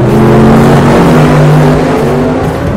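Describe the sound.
A drag racing car's engine revs on a Florida drag strip: a loud, continuous roar with a steady harmonic drone that holds through the whole clip, with no talk over it.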